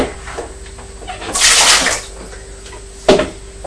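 Water splashes in a bowl as a child washes. A longer burst of splashing is followed later by one short, sharp splash, over a faint steady tone.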